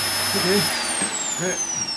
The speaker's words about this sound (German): jetzt mach doch mal den Staubsauger aus!